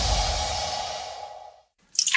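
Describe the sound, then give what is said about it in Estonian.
Water drips from a kitchen tap: a rushing watery hiss fades away into a brief silence, then a single bright, high plink sounds at the end. “Ma tilgun! Kurdab köögikraan. Ma lausa nirisen.”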